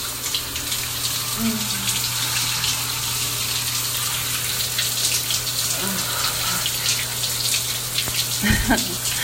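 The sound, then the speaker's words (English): Water runs steadily while soap is being rinsed off, a continuous, even splashing rush that holds without pause from start to finish. “Come on, let's rinse the soap off.”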